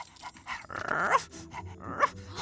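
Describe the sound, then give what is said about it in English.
A pink robot dog barks and yips in short bursts mixed with whimpering, whiny tones. Two louder yips stand out above a busy background. “A pink robot dog.”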